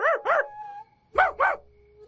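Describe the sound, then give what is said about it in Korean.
A person imitates a dog barking with four short, loud, voiced yaps in two quick pairs split by a pause. A thin drawn-out tone trails after the first pair. “이번에는 제대로 해보자 싶어서 목을 쭉 뽑고 개처럼 짖었지.”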